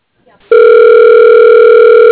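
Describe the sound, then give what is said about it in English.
A telephone tone sounds while an outgoing call is dialed: faint clicks, then a loud, steady, unbroken tone that holds without a pause to the end. “Okay, dialing.”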